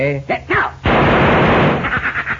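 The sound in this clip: Pistol shots fired at thrown pieces of adobe: a loud, dense burst of rapid cracks that follows a brief voice and then tapers off into softer, scattered pops.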